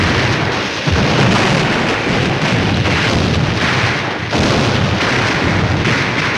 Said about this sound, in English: Under the barrage of machine gun fire and explosions, Sergeant Early keeps low as he hurries past the trees.